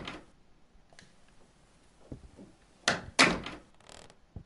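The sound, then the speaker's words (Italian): Key turning in a door lock and the door swinging open in a video game: a few faint clicks, then two louder thuds close together and a softer knock at the end. “nella stanza di James, usiamo la sua chiave e entriamo in questo luogo.”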